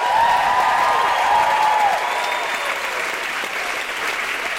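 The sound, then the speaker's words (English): An audience applauds and whoops for a comedian being introduced on stage, a steady burst of clapping with a few high cheers early on, easing slightly in volume after about two seconds. “Put your hands together and make general woohooing noises for the wonderful Carl Wilson!”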